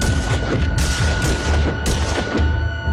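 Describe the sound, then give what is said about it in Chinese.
A burst of gunfire rings out in front of a party headquarters in the morning: several sharp, loud cracks about half a second apart over a continuous low rumbling background. “1925年8月20日上午，国民党中央党部门前突然响起一阵枪声，”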